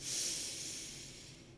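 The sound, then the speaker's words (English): A deep breath during a guided breathing and relaxation exercise, one soft, airy, continuous hiss lasting more than a second and slowly fading. “Take one more deep breath in”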